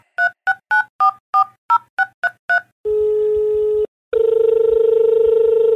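A telephone dials out to call a guest: a quick run of about nine beeping keypad tones. Then a steady tone holds for about a second, a brief pause follows, and a continuous ringing tone plays alone.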